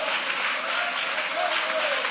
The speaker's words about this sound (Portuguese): podem aplaudir a Deus com alegria. Pode glorificar o nome de Jesus.